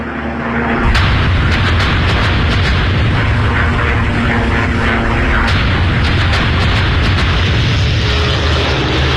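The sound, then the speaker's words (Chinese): A large-scale German air raid on France brings explosions and heavy booms. Sharp blasts and the drone of aircraft ride on loud, unbroken rumbling that starts suddenly and never lets up. “没过多久，德军就发动了大规模空袭，用以摧毁法国的重要交通要道、机场、炼油厂还有燃料供给地。”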